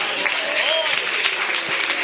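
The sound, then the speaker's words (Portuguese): Applause at a church ministerial ordination service: a steady, dense wash of many hands clapping that holds at an even level for about two seconds. “Uma salva de palmas para o Senhor.”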